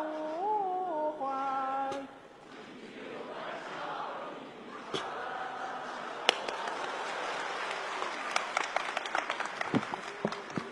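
Audience applause at a concert-style stage show after a song, with a sustained wash of clapping that grows into sharp, distinct claps toward the end.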